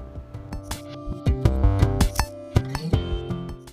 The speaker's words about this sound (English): That's the sound of you moving your drink around.